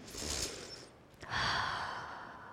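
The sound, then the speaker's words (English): A deep breath drawn in, soft and breathy, in two swells separated by a brief pause. Faint and alone, with no talk over it. “I invite you to take a deep breath in the midst of your chaos.”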